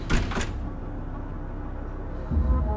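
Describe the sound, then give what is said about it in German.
Two quick, sharp clunks as someone in a dark passageway pulls the knob of a locked door, followed by a low, steady rumble. “Er stoppt, sieht zum Dreieck und zieht am Knauf der verschlossenen Tür.”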